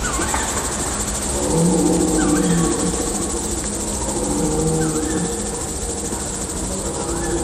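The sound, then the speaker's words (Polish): A red deer stag roars. Two long, drawn-out, low roars rise above a steady background hiss. “Jeleń, byk.”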